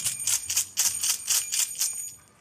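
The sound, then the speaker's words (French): A bell rings in a rapid, steady series of bright, clanging strokes at a wedding, many hits in a couple of seconds with no talk over them. “Là, vous avez la cloche.”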